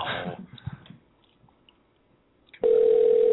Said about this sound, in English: Here comes a voicemail.